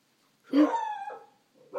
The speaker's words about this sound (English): Be quiet, Arlo. That's my dog's name.